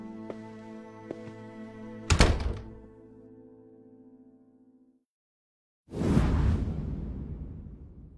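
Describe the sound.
A door opens and closes as someone leaves: a single heavy thunk cuts across sustained tones, then after a brief silence a broad rushing swish sounds and slowly fades.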